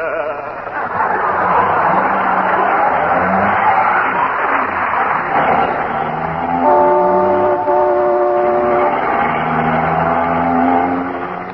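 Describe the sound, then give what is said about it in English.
A car speeding through town, a steady, muffled engine roar running throughout, joined in the second half by a sustained horn-like tone. “Isn't he driving awfully fast, dearie? I'll say he is. We just went through a stoplight.”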